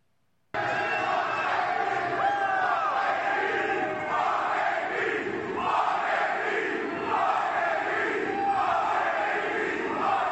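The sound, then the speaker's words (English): A loud stadium crowd of Raiders football fans at a Monday night game in the Black Hole, chanting in a steady rhythmic pattern with roars and shouts mixed in, continuous throughout. “And this is how the fans reacted to not having Antonio Brown in the organization any longer. Let's go to the tape.”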